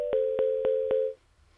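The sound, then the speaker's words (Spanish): Steady mid-pitched phone line tone after a dropped call, sounding for about a second with four evenly spaced clicks cutting through it before it stops abruptly. “Parece que la llamada pues se ha cortado.”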